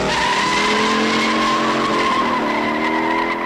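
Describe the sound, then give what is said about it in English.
Tires squeal and an engine roars in a car chase effect from a GT40 or 428 Cobra Jet. A loud, continuous skid holds steady tonal whine throughout, with no talk. “that is the sound of a GT40 or a 428 Cobra Jet. The same sound effects. These ones you hear right now.”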